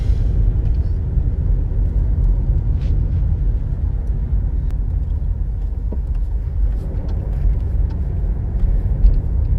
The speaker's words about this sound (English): So I guess I'll just keep driving.